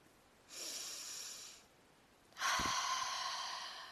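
A person breathes in and then out during a guided breathing exercise. One soft, airy inhale is followed after a pause by a longer, louder exhale, with no talking.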